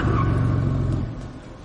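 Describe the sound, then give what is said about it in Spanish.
A car's engine rumbles loudly as it arrives, the deep drone dropping in level after about a second and continuing more quietly. “Miquel y Ari acuden con su coche donde está Navas.”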